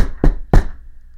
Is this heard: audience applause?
no